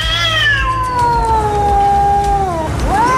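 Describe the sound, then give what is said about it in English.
Cats yowling at night, one loud, drawn-out wavering cry that slowly falls in pitch, holds, then dips and climbs sharply again at the end, heard alone over a low background hum. “I recorded cats that kept me awake all night.”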